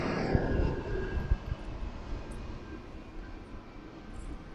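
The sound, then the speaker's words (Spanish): An airplane flies overhead, giving a broad, steady engine roar that is strongest at the start and eases slightly toward the end. “Ahí viene otro avión, gente.”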